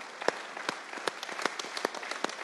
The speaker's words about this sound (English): So we clap to say thank you.